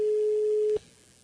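Telephone line tone heard while redialing after a dropped call: one steady mid-pitched beep held for under a second, then cut off abruptly, leaving faint line hiss.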